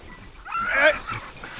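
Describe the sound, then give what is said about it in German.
Hunting dogs bay at a raccoon cornered under a fallen tree, handlers struggling to hold them back: a short, strained burst of yelping and whining that peaks mid-clip, then trails off into fainter whimpers. “Der Waschbär hat sich unter einen umgestürzten Baum geflüchtet, die Hunde an ihm dran, kaum zu bändigen von den Treibern.”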